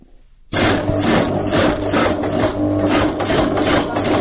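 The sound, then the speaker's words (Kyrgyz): A sewing machine stitches trousers in a small village tailoring group in Suzak, a loud, steady mechanical whirr that starts abruptly after a brief quiet moment and runs on with fast rhythmic pulsing. “Биз азыр элден заказ алып, шым тигип жатабыз.”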